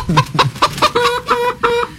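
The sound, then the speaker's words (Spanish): Hens cluck and fuss in a rapid, rhythmic run of many sharp, loud clucks, with short bursts of agitated calls following one another. “ahí están las gallinas que se pronuncian, ¿no? Se alborotan cuando llega Tito Alvites aquí exitosa”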